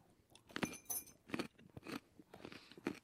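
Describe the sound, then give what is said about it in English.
Biting and chewing a raw carrot during a taste test, a few faint, crisp crunches spaced through the stretch with quieter munching between them. “All right, tasting carrot number two now.”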